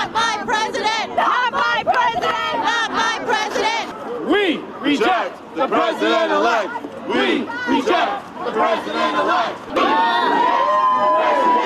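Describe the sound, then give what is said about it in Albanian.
Around 2,000 protesters march through Manhattan, New York, chanting and shouting against Donald Trump. The many voices rise and fall in loud, rhythmic chants that continue throughout. “Në Manhattan të New Yorkut afro 2000 vet kanë brohoritur, nuk është presidenti imi, derisa kanë marshuar kaselia zotit Trump.”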